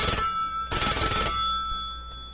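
Telephone ringing on an outgoing call: a ringback tone with bright, steady tonal pitches and a couple of louder ring bursts, heard alone with no talk.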